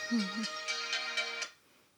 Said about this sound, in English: Sorry, that's my phone.